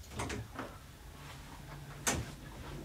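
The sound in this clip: Door sounds as a woman heads out of a studio: a couple of soft thumps, then one sharper click, all faint over a low steady background hiss.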